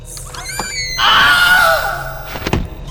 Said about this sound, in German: Das war eine Falltür.